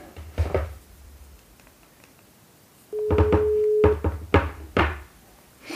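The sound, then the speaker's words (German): A telephone line tone, steady and mid-pitched, holds for about a second amid several sharp knocking clicks before and after it. “Und jetzt versuchen wir mal, den Olympiasieger im Speerwerfen, Thomas Röhler, anzurufen.”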